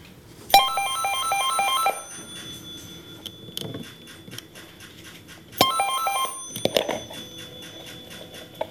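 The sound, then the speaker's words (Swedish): A landline telephone rings twice during the ceremonial last call on Finland's nationwide wired network, each bright, trilling ring lasting over a second, separated by a long pause and followed by scattered clicks and handling noises. “Vår reporter Mattias Forsblom var med när operatören Elisa under ceremoniella omständigheter kopplade upp det sista samtalet idag”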